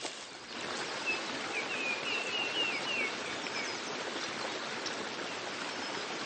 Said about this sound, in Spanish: Bajo por el descendiente camino, y un susurro batiente me insinúa un río rebosante de vida y color.